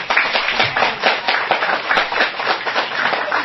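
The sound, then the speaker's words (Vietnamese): Audience applause following a speech at a gathering: dense, continuous clapping from many hands, a steady rattling wash that holds evenly throughout with no voices rising above it. “cho họ một tràng pháo tay”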